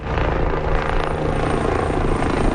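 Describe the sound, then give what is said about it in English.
A helicopter waterbombs forest fire flames during a national emergency near the central Spanish town of El Tiemblo. Its loud, steady rotor and engine drone fills the whole clip without a break, and no voices are heard. “a helicopter waterbombs flames in the central town of El Tiemblo, a national emergency.”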